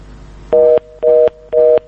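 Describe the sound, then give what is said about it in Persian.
A telephone busy tone after a dropped call-in: three short, steady, evenly spaced tone bursts, each about a quarter second long, loud and clear with no talk over them. “تماس ما متاسفانه قطع شد با زکریا از لغمان”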